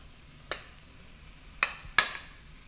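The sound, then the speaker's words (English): Bratwurst being added to a pan of Brussels sprouts with the heat just turned off: three short, faint sizzling hits, each a sharp click fading into a brief hiss, with quiet gaps between. “So I'm actually turning the heat off now. And I'm going to add my brats.”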